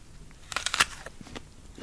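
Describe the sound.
Someone bites into a Gala apple, giving a few crisp, sharp crunches in quick succession. Softer chewing crackles follow and fade.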